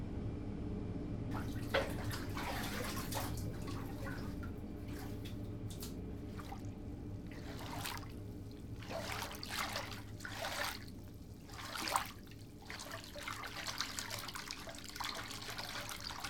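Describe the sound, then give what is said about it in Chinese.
Bath water runs into a tub in a faint, steady trickling rush with occasional soft splashy bursts. “洗澡水已经放好了，现在可以去洗漱了。”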